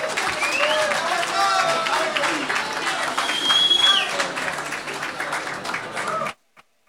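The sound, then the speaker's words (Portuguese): An audience applauds, with steady clapping and crowd noise holding at an even level and a brief whistle partway through. It stops abruptly just before the end. “Peço uma salva de palmas para Valgina Macedo com o meu primo Otávio”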